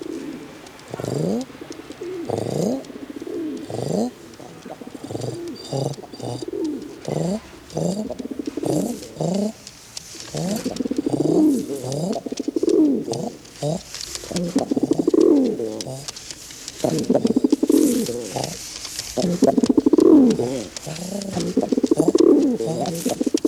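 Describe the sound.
Pigeons cooing in a long, steady series of low, throaty coos that repeat in a soft rhythm and overlap through most of the stretch, with a few brighter chirps above them.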